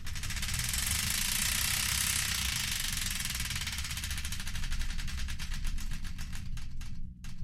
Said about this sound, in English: The Wheel of Destiny is here ready to be spun, so without further ado, let's spin it and find out the song that's kicking things off.